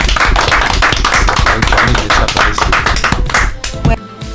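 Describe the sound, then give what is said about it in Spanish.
Loud applause from a group clapping for their companions, a dense, rapid wash of overlapping hand claps that runs steadily, then thins and turns patchier near the end. “Un aplauso para todos los compañeros.”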